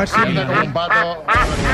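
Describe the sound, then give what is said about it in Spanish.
A human voice imitates a duck's quack in a few nasal, buzzy bursts, loud and run together with little pause between them. “Mira. Un pato.”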